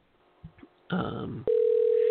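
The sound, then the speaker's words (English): A telephone dial tone, a steady single-pitch hum that starts after a couple of soft clicks and a short burst of noise, then sounds loud and unbroken to the end. “Okay, try dialing her again. I'm going to try and dial her again.”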